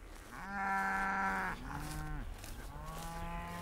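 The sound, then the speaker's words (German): Cattle lowing as a herd is moved to new pasture: three drawn-out moos follow one another, and the first is the loudest. “Für den Umtrieb will Carsten vor die Herde. Wenn er vorangeht, folgt sie ihm von ganz allein.”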